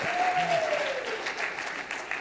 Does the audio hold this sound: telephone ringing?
no